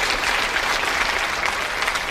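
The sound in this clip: Applause from a television game show audience: dense, steady clapping that stays evenly loud throughout, with no voices standing out.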